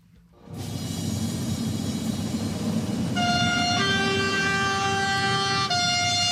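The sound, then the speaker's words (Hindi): A train horn sounds at the opening ceremony of a 57-kilometre rail tunnel through the Swiss Alps. Sustained harmonic tones rise over a constant broad rush of noise and shift in pitch partway through. “Rail के siren के साथ Switzerland में Alps के पहाड़ों के बीच आज दुनिया की सबसे लंबी और गहरी रेल सुरंग का उद्घाटन हुआ।”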